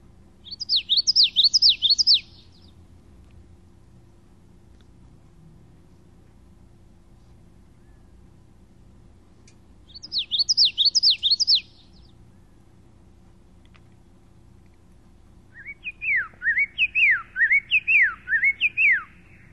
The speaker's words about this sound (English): Here's the song of the common yellow throat, and we'll hear it at regular speed, and then we'll hear it slow down, and then slow down even more.